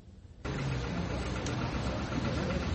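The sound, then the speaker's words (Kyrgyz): An old-model tractor engine, 56 years old, running: a dense, steady rumble that kicks in abruptly after a short quieter moment and then holds level throughout. “Анысы да эски үлгүдөгү трактор экен.”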